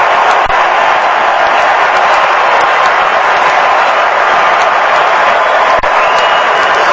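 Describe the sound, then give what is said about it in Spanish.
A stadium crowd in Miami roars and cheers as Neymar enters a Brazil football match as a substitute, a loud, continuous, unbroken wall of cheering and applause sustained at full intensity throughout. “Así lo recibe el público de Miami, se va Mateo Cunha. Explota el estadio con Neymar en la cancha.”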